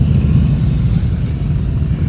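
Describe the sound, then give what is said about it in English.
Motorcycle engines rumble as several bikes arrive back in a power company's parking lot, giving a steady, loud, low drone that holds at an even level throughout, with no voices. “it's the sound of the motorcycles arriving back here on Muse Place, Newfoundland Power's parking lot on Muse Place”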